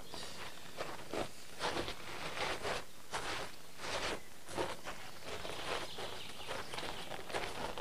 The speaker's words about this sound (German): Mit dem Wagen kommen wir hier nicht mehr weiter. Wir müssen zu Fuß gehen.